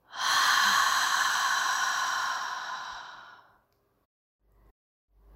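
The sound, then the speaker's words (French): One long breath out through the mouth during a relaxation breathing exercise: a soft, airy rush that starts strongly, holds for about three seconds, then tapers off into silence with only faint low sounds after. “Inspire par le nez. Expire par la bouche.”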